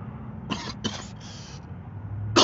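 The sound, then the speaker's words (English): A person coughs after smoking cannabis: three quick, harsh hacking coughs in succession, a short pause, then the loud start of another cough at the end. “Oh, shit, we got the cough of the day.”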